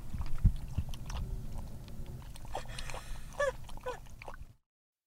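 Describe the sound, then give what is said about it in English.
A dog drinking water inside a car, heard as a quick run of wet, clicky laps and slurps over a steady low rumble. It cuts off abruptly at the end. “this is the sound of my dog drinking water in the car.”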